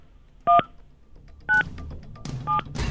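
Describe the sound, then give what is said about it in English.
Telephone keypad dialing tones: three short, steady dual-pitch beeps evenly spaced about a second apart, with faint background noise between them. “The pressure is high, especially when you hear the dial tone.”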